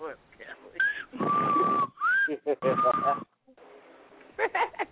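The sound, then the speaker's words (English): Someone whistles a few short, clear notes and several longer held tones, broken by pauses, while people talk quietly. “Whoever's whistling is really trying it.”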